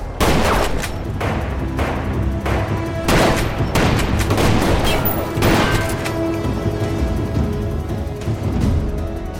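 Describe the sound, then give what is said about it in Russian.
Gunshots crack in a dense, continuous volley, with many rapid overlapping shots and heavy booms running through the whole stretch without a break. “Лукас и Мак испуганно вертят головой, слыша выстрелы.”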